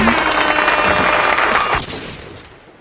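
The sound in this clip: Audience applause welcoming a guest on a show: loud, dense clapping from a crowd that stops abruptly partway through and leaves a fading tail.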